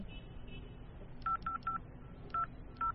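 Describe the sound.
A phone number is dialed: five short, quiet keypad tones, three in quick succession and then two more spaced apart, over faint background hiss.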